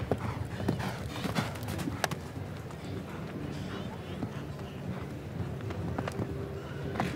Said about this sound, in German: Er reitet hier mit Vernunft, besonnen über diesen zweiten Umlauf hinweg.